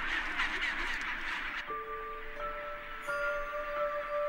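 A colony of tens of thousands of penguins nests on bare rocky cliff tops. Their harsh, honking, quacking calls overlap densely for the first second and a half, then the noise grows quieter. The calls are faint overall.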